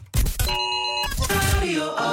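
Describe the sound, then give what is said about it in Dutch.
A radio station's emergency alarm jingle plays loud and dense, with sustained electronic alarm tones layered over heavy low thumps and sweeping synthesized sounds. “Dat is natuurlijk het grote alarm, het noodalarm.”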